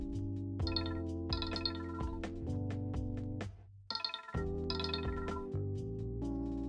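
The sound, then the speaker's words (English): A phone ringtone signals the end of a timed step: bright melodic electronic notes play in a steady repeating phrase, pause briefly midway, then resume at similar loudness. “after 2 minutes we'll have a ringtone just to inform us that we're done with that step. So the ringtone will sound like this.”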